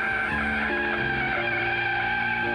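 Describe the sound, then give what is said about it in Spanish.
Tires squealing as a taxi swerves and brakes abruptly, a loud, harsh sustained screech with a tonal whine over rough noise that lasts the whole moment without a pause. “El taxista, para no causar una tragedia, tuvo que girar el auto y frenar abruptamente.”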